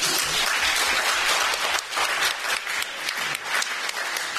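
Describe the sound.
Audience applause welcoming a speaker at a debate event: dense, steady clapping from a crowd that holds at an even level for the whole stretch, with no talk over it.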